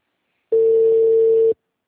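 A telephone ringing tone plays while a caller waits for an answer: one steady, unwavering beep lasting about a second, alone and fairly loud.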